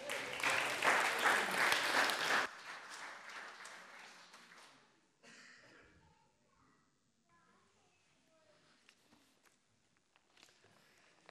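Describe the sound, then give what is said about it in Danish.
An audience claps for a guest at a Fastelavn carnival party in a burst of applause lasting about two and a half seconds that stops abruptly, followed by soft footsteps and faint voices. “Skal vi ikke også give ham en hånd?”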